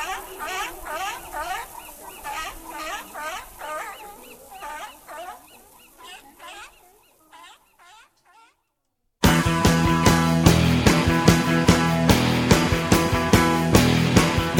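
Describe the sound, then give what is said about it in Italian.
Seals bark and call in a rapid, rhythmic string of hoarse cries for about seven seconds, then fall silent before loud music starts. “Avete sentito? Anche le foche bevono Radio Wombat.”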